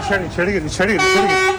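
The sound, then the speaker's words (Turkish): A concrete mixer truck's horn honks during an armed street brawl, with a steady tonal blare that sounds out and then holds, while agitated voices talk and shout over it. “Görüntülerde bir beton mikseri sürücüsünün de korna çalarak kavgaya müdahale etmeye çalıştığı görüldü.”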